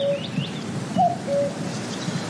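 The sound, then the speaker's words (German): A bird calls in a few clear whistled notes at mid pitch, with a few thin, higher chirps between them, all over a steady hiss of background noise. “Und das ist jetzt der Vogel, den du bezüglich der Fußball-WM hast.”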